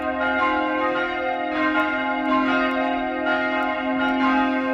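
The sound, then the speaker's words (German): Church bells rung by hand with a bell rope for the midday ringing in Utting, bells cast by the Bachert foundry, pealing continuously in overlapping strokes over a steady, humming ring that fills the whole clip. “Per Seilzug werden sie, wie in alten Zeiten, weiterhin noch von Hand geläutet. Das Mittagsläuten aus Utting von Michael Mannhardt.”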